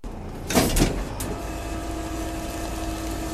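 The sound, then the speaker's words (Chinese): Garbage collection trucks roar at a sanitation vehicle depot in Chaoyang District, Beijing: a steady engine rumble with a louder mechanical burst near the start and a brief hiss shortly after. “伴随着垃圾清运车辆的巨大轰鸣声，记者来到了北京朝阳区环卫中心第一清洁车辆厂。”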